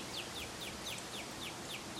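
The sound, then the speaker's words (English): Cardinals and robins singing over a breeze in Norway maples in Toronto: an evenly spaced run of bright, downward-slurred chirps repeats over a constant soft rushing hiss, all fairly faint. “A bit of breeze in Norway maples.”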